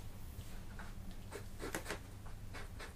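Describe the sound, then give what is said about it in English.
Pen or marker scratching as capital letters are written by hand, a series of short, soft strokes in an uneven rhythm over a constant background hiss. “And then you're writing in some lovely capital font letters.”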